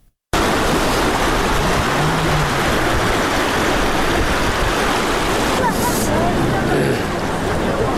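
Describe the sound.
Rushing floodwater after rains near homes in the Talani area of Uruzgan province, a loud, dense, continuous roar that stays steady throughout, with faint voices mixed underneath.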